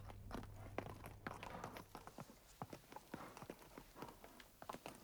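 Horses' hooves clattering restlessly on the ground at a castle as knights wait, equipped for a journey; many irregular clip-clop steps and shuffles, fairly loud, with no voices.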